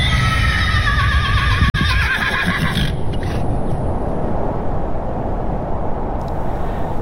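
Horses of horse-drawn carriages neigh in a loud, quavering whinny over the first three seconds, followed by a steady low rumble with faint hoof sounds and a sharp click near the middle.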